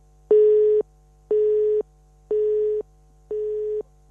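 Busy tone after a dropped phone call: four loud, even, mid-pitched beeps, each about half a second long and separated by equal gaps, with no voices.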